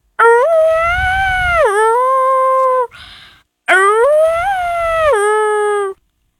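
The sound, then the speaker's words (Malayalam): A jackal howls twice in long, loud, harmonic wails, each holding a steady pitch before dropping lower toward its end, with a short rough noise in the gap between them. “Kurukkan ഓലിയിടുന്നത്.”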